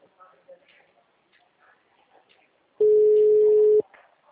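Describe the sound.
A single steady telephone busy tone, an even mid-pitched beep lasting about a second, after faint, soft voice-like sounds at low level.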